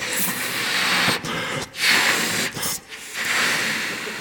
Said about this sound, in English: Until eventually, this balloon hasn't done anything of its own accord other than just be filled.